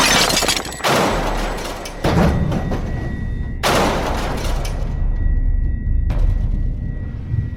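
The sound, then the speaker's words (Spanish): Heavy crashing and breaking of a ship smashing onto rocks beneath a lighthouse: several loud, abrupt impacts over a continuous noisy roar that fills the whole stretch. “El barco está destrozado y sus cuerpos bajo el agua.”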